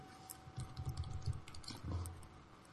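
Faint typing on a computer keyboard during a tabletop role-playing game session, with many quick, irregular soft clicks.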